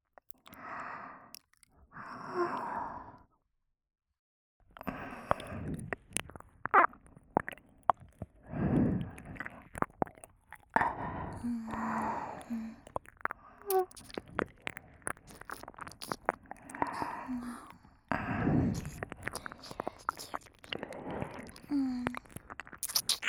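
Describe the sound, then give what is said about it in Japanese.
Wet saliva mouth sounds made close up: many quiet clicks, smacks and squelches in an irregular rhythm, broken by a brief pause and soft breathy sighs. “まずは唾液を入れていきますね。”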